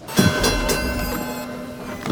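A robotic trolley rolls along rails with a steady, dense rumble and humming tones. A brief heavier bump comes near the start, and no one speaks.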